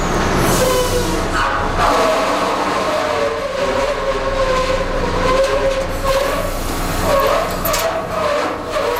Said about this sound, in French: Et voilà, un bruit de forage de pétrole, on pompe